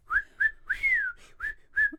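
Someone whistles imitation bird calls: five bright chirping notes separated by short pauses, the middle one drawn out and gently falling, with no talking.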